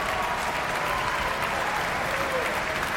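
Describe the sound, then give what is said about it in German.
Applause from a sold-out opera audience and the orchestra at the Prinzregententheater in Munich: dense, steady clapping at an even loudness throughout, with no break or lull. “Das vollbesetzte Prinzregententheater in München ist hörbar angetan. Und hier applaudiert ebenfalls das Orchester.”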